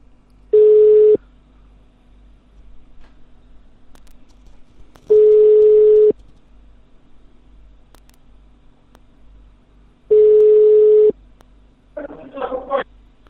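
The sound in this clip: Three long, steady telephone ringing tones from a call placed by clicking. Each lasts about a second, they are evenly spaced several seconds apart, and a brief muffled sound follows.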